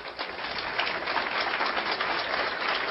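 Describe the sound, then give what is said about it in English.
Audience applause welcoming a speaker at a talk, a steady, dense patter of many clapping hands, fairly faint and even, lasting about three seconds with no voices. “please help me give a warm hand of welcome to our next speaker, Captain Joyce Riley.”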